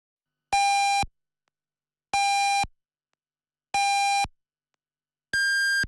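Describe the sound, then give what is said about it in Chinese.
Radio time signal beeps marking eight o'clock Beijing time: four short, evenly spaced electronic beeps, the last one pitched noticeably higher than the first three, with silence between them. “北京时间8点整”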